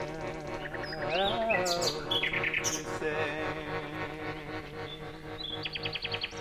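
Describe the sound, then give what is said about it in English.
A nightingale sings loudly nearby in a rapid, varied stream of whistles, chirps and buzzy trills that shift in pitch from phrase to phrase, over sustained musical tones. “One flipping loud nightingale, isn't it?”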